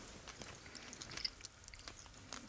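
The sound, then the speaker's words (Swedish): Soft chewing of a roughly two-centimetre piece of cheese and a dried strawberry eaten with the fingers, with faint moist clicks and small crunches scattered irregularly and no talk. “Det är ungefär 2 centimeter stor ostbit och en torkad jordgubb som är ungefär lika stor. Du kör, jag äter med fingrarna”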